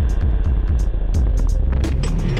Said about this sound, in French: Et la voiture fonce, 90 km/h sur l'autoroute, nous avons pris la direction du San Bernardino.